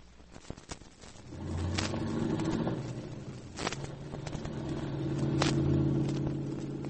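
A car is being driven, giving a faint, steady low rumble that swells and eases slightly, with a few soft clicks and knocks over the hum.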